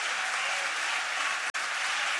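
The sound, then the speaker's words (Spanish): Steady, dense applause in a parliament chamber as members stand, a continuous loud wash of clapping hands with a brief dropout near the end and no speech over it. “Se unen los aplausos a arengas que identifican la frase Keiko Presidenta.”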